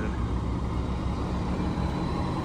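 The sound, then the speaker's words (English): Buses driving along Highway 1 in Darién, Panama, give a continuous low engine rumble and steady road noise, even in loudness throughout, with no talk. “That's Highway 1 that they're on. This is bus number 9. We're in Darien Gap right now. Actually, we're in Darien. They just left the Darien Gap.”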